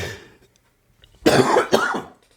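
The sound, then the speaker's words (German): A person coughs in two harsh, loud bursts in quick succession after a quiet stretch, with no talk. “jetzt muss ich hier husten, das ist ja furchtbar.”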